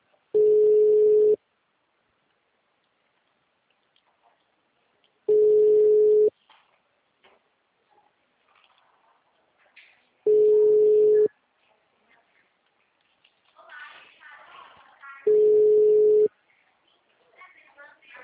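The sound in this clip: Ringback tone of an outgoing phone call: four long, steady low beeps of about a second each, repeating at even intervals of roughly five seconds, with faint scattered noises in the quiet gaps.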